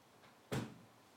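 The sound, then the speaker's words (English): A door is shut with a single short, soft thump that is faint and heard on its own. “She's in now. The door. Shut the door.”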